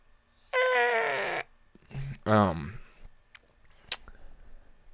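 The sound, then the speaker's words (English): A person yawns mid-talk with a long, drawn-out, voiced groan, followed by a shorter falling vocal sound and a few faint clicks. “I lost my train of thought with that yawn.”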